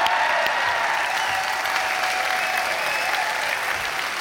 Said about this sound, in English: Would you please give them a warm Hope College welcome?